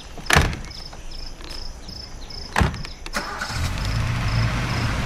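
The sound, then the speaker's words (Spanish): A car starting and driving out of a yard: two sharp thumps like doors shutting, then the engine turns over and settles into a steady running rumble that grows a little louder to the end. “El coche sale del patio.”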